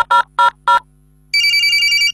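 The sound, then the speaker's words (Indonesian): Three short, evenly spaced electronic beeps, like keys pressed while dialing a mobile number, followed by a pause and then a steady, bright telephone ringing tone that continues to the end. “Kita telepon selangsung deh. Pencet nomor HP nyo.”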